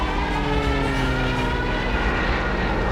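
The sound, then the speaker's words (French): A steady, loud droning engine of an airplane in flight, caught in a downdraft above Laguna del Diamante before an emergency landing, with a constant hum that neither rises nor falls. “L'avion est pris par un courant descendant.”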